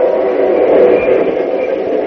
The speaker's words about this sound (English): freight train winds like a puffing snake along a narrow grade from which the roadbed falls away for hundreds of feet to a swift-running river.